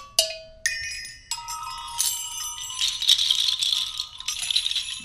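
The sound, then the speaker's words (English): Bells and chimes from a rack mounted on a drum kit ring out as a few bright struck bell tones. A shimmering, jangling wash of chimes and rattles follows and keeps sounding to the end. “so you've augmented it with a whole rack of bells and chimes here.”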